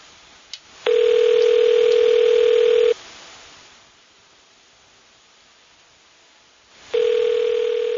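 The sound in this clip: Telephone line tone while a call is being connected: a brief click, then a steady mid-pitched tone held for about two seconds, a pause of around four seconds, and the same tone starting again.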